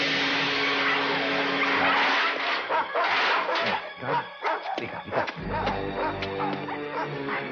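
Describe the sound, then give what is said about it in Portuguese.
Dogs bark with sharp yips and some whimpering, a few quick barks rising over a busy, noisy background with other sounds mixed in. “Eu não gosto quando você provoca os cachorros.”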